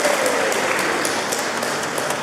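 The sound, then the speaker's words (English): Applause from a church audience, a dense, even wash of many hands clapping at moderate volume, sustained throughout with no voices. “Bookham URC, which I think it deserves a round of applause”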